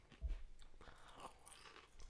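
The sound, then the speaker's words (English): Regular crisps crunch softly while being bitten and chewed, a few quiet crackly bursts with the sharpest bite near the start and low, uneven chewing noise after it. “The crunch is a little meh. Agree. But what you can expect from regular crisps.”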